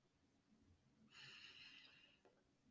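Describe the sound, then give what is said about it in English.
A single deep breath taken during a guided breathing exercise, a soft airy rush lasting about a second that rises out of near silence and fades again, with no talking. “let's start taking a couple of deep breaths. Inhale and exhale.”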